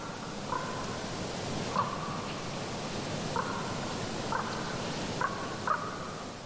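Quiet outdoor ambience in elk habitat, a steady soft hiss with a few faint, brief bird calls now and then.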